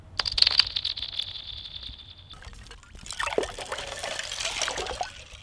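Small pebbles bounce on a frozen pond, making high, ringing, whistle-like pings for about two seconds. Then the pond's ice breaks and sinks in a broad, crackling, sloshing wash of sound. Both parts are fairly faint.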